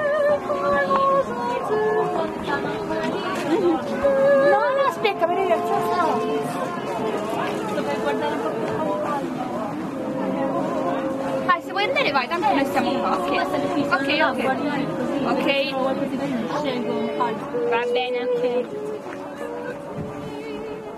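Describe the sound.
Crowd chatter at a Christmas market, a continuous dense mix of many overlapping voices at a steady level throughout.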